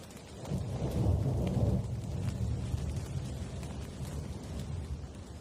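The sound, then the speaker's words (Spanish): Steady rain falls while distant thunder rolls. A deep, low rumble swells early on and then eases, leaving a continuous wash of rainfall, with no voices. “A lo lejos volvió a relampaguear un rayo iluminando la parcela. Mientras, el sonido de la lluvia aumentaba.”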